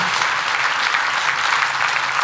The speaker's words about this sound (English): will you give these guys a round of applause?